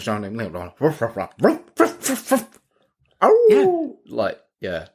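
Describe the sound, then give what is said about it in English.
A man imitates a dog with his voice: a string of gruff barks and yelps, a pause, then a drawn-out wavering cry and a few more short barks, loud and close. “makes a bunch of weird noises, and then he starts barking like a dog”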